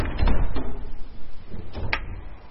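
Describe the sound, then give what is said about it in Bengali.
A chamber door opens, with a few dull knocks and scraping, rustling textures spread over a short, fairly steady stretch of sound. “ঠিক সেই মুহূর্তে কক্ষের দরজা খুলে গেল, প্রবেশ করল বড় রাজকুমার বিক্রম।”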